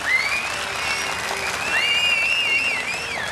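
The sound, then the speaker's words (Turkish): Strong applause from a concert audience for a stage performance: dense, steady clapping with shrill whistles sliding above it. “Bir kuvvetli alkış daha alalım.”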